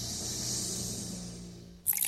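Safe drinking water running from a tap in a steady, bright rushing hiss that holds evenly and then breaks into a short, sharper splashing burst at the end.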